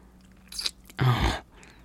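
Wet licking and mouth sounds close to the microphone. There is a short burst and then a longer, louder wet smacking, with no talking.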